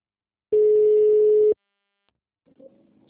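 A mobile phone signal tone heard during a call: a single steady, mid-pitched beep lasting about one second. Silence follows, then a faint brief sound.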